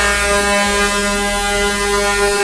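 A truck air horn blares in one long, unbroken blast, loud and steady with a harsh, buzzing tone that holds level from start to finish, with no voices over it.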